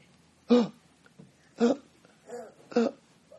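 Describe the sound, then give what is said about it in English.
A man's voice imitates laboured, suffocating breathing: four strained, voiced gasps in an uneven rhythm, the third softer than the others, with quiet pauses between. “The one man who gave the testimony of 23 minutes in hell said that when God took him there, he couldn't breathe. He said he breathed like this.”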